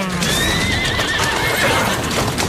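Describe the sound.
A horse neighs over the busy clip-clop of hooves pulling a carriage. The whinny is a high, wavering cry above dense, loud, continuous clatter.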